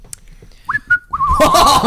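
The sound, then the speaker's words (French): Whistling by a person used in place of words: a short rising note, then a second brief note, then a longer wavering tone that continues beneath a burst of broad, noisy sound. “il siffle souvent. Je m'en suis rendu compte quand on est allé à Vevey. Bien sûr. Il siffle énormément à la place des mots.”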